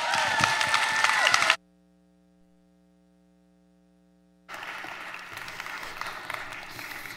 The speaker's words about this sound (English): let's give her a hand.